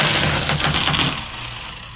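A clatter of clad coins dropped together for a sound test: a loud, bright metallic jangle of many small hits that tapers and fades over about two seconds, with no voices.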